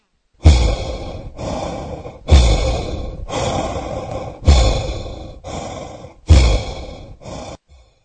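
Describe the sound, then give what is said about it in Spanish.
Heavy, raspy breathing of something or someone right up close to a person's face: four slow cycles, each a loud, harsh inhale followed by a breathy exhale, with nothing else audible. “Y cuando menos lo pensó, tenía la respiración de algo o alguien en su cara.”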